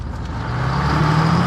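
A passenger car pulls off and drives: a steady low engine rumble with a hum that rises slightly in pitch over a short stretch.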